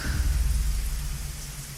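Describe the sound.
Steady rain pouring down, a dense even hiss with a low rumble beneath it, with no voices.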